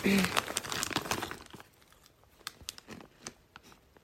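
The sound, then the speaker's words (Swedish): A bag of peanut-ring snacks crinkles as someone eats from it, with dense rustling at first that thins into sparse, faint crackles and crunches. “Jag måste äta lite jordnötsringer.”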